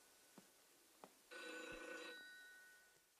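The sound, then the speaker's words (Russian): A telephone rings in a room with one short, faint burst of bright, tonal electronic ringing that stops after under a second, with a few soft clicks before it and quiet afterward. “В комнате звонит телефон.”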